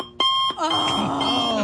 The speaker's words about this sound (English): That sound is like a nightmare for me. From my earliest memories, that alarm clock sound